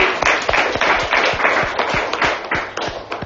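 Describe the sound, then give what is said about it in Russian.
Audience applause at a talk with a question-and-answer session: a dense, steady wash of many hands clapping, with crisp individual claps poking through throughout and no voices. “Давайте похлопаем.”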